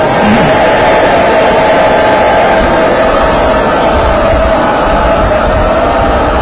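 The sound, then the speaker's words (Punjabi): An audience loudly shouting a Sikh jaikara chant, heard as a dense, sustained roar of many voices together, very loud and distorted, holding steady for the whole stretch. “ਇੱਕ ਜੈਕਾਰਾ ਹੋਰ ਵੀ ਗੱਜ ਕੇ ਬੁਲਾਓ ਸਾਰੇ।”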